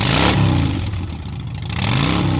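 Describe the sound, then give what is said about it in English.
A motorcycle engine revs during a long charity ride by New York firefighters. The throaty roar is loud and continuous, with the revs swelling near the start and again at the end. “Five New York City firefighters on a 5,000-mile round-trip motorcycle mission from the World Trade Center to Denver and back.”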